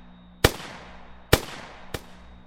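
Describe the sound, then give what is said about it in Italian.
Gunshots fired from the rear right window of a car at two people: three sharp, loud bangs, unevenly spaced, each with a short decaying tail, alone with no talk. “Arriva dal finestrino posteriore destro e inizia a sparare sui due.”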